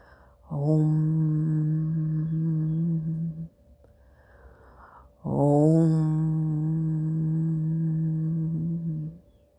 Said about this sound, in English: The sound of the universal consciousness is Om. It is a soft vibrations that can be felt deep within your heart.